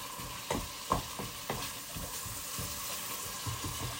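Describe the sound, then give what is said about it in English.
Meat and its juices sizzle in a pan with fried onions, garlic and ginger during a stir-fry. A steady hiss carries on throughout, broken by a few louder scraping stirs, with no talk. “you return the meat along with whatever juices are on the plate back into the pan.”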